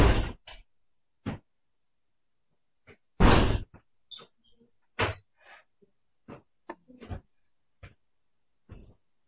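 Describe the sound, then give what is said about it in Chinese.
A door is closed and locked: a loud knock of the door shutting, another heavy thud, then many small sharp clicks and rattles of the lock, separated by silence. “门关上， 锁一锁。”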